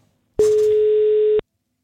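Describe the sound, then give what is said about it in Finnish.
Telephone line tone as a radio station places an outgoing call to a contest winner: one steady, mid-pitched tone lasting about a second, loud and alone, with a brief noisy click at its start. “Mika Lintu soittaa Radio 957”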